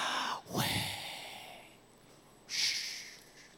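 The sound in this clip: Two audible human breaths, each an airy rush through the nose or mouth, separated by a quiet pause of about two seconds, with no words spoken.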